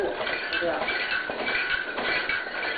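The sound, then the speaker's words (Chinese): A shaken saddle serves as a sound-effect prop for a horse-drawn carriage, giving a steady, continuous rattle of metallic clinks and jingles at an even, fairly loud level throughout. “对面的马鞍摇动它呢是马车的声音”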